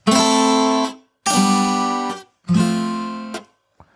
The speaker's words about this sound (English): One cool thing that people usually do is add a MIDI chord, then the MIDI strum, which goes through all the notes in a, not at the same time, but slowly. And then you can add the guitar at the end.